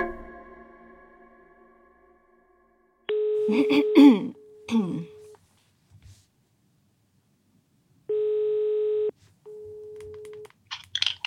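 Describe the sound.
Ringing tones on an outgoing telephone call: a few steady mid-pitched ring tones separated by silent pauses, with voices over the first tone.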